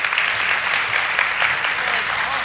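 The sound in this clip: Audience applause welcoming a speaker to the stage, as a steady, dense wash of many hands clapping at an even loudness throughout.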